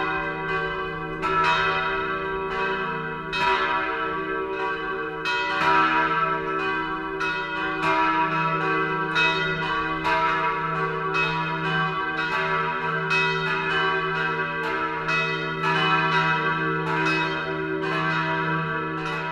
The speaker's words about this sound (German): Das Mittagsläuten kommt heute aus Wolkshausen in Unterfranken.